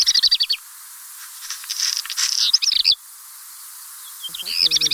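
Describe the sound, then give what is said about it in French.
Black redstart song: high, quick chirping phrases that open and close the passage, with a scratchy, crackling stretch of song between them. The bird sings alone, fairly loud. “Und so klingt dieser Hausrotschwanz in der Aufnahme der Vogelwarte Sempach.”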